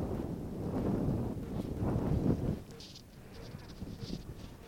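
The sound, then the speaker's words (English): Wind blows against a microphone on a hilltop, giving low, rumbling buffets for a few seconds. The rumble then drops away to a softer, thinner rush. “I hope you can hear me against the wind.”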